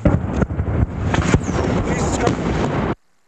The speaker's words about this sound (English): This is the sound of an RPG whizzing overhead before the tape goes blank as this reporter dives behind a Humvee.